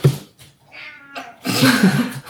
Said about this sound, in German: Wir haben zwei Katzengäste zu Besuch. Einer aus Oberhausen, einer gegenüber. Das heißt, wenn ihr Mauzen oder Kratzen hört,